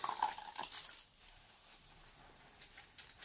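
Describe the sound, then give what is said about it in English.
Water trickles and splashes as part of a towel is wetted during an at-home leg-shaving routine, a short burst of dripping at first, then a quiet pause and a few soft taps near the end. “I'll just wetten this part of the towel with some water.”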